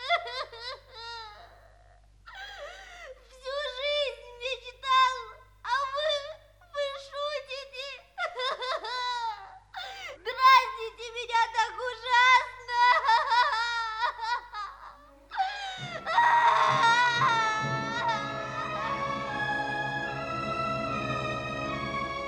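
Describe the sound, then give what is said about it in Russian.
A young boy sobs after throwing himself onto a bed, his voice breaking into choked, pitched wails in uneven bursts, then a denser stretch of crying toward the end. “Малыш бросился на кровать. Боссы, Беттон и мама подошли к нему, но малыш не обращал на них никакого внимания. Он весь трясся от плача.”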